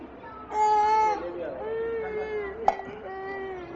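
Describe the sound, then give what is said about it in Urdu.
Young child crying in sustained, wavering wails that go on for a long time, rising loud and then continuing in quieter whimpering cries. “یہ اتنی دیر سے روئے جا رہے ہیں, اتنی دیر سے.”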